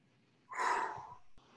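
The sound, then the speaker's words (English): A single deep breath, a soft, airy rush of air that swells quickly, then fades over about half a second, heard on its own and fairly faint. “So that's one way, is just deep breath.”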